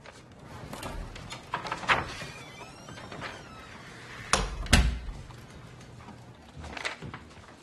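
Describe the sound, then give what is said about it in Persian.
A door is pushed shut with a loud double clunk midway, surrounded by scattered softer knocks and handling noises. “در رو ببند.”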